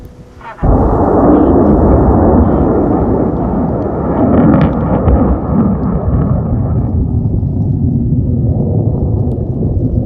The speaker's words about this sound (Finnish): Nyt se ampaisi ylös kohti avaruutta. Ruotsalainen metsä laukaisualustan ympärillä hiljenee.